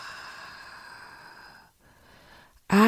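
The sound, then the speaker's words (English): Long, breathy inhale and exhale during a guided affirmation meditation: a sustained airy breath fading into a softer, quieter stretch, with a sudden loud tonal sound at the very end. “Take a deep breath in. Hold and exhale.”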